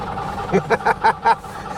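A car engine is cranked with the choke pulled out, giving five quick, rhythmic chugging pulses. Quieter background noise comes before and after.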